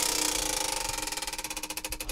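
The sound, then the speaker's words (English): A prize wheel spun on a show, giving off a rapid stream of ticking clicks that gradually spaces out and slows as the wheel loses speed. No one talks over it. “This is where we spin the wheel of closers and we figure out how to put this thing to bed.”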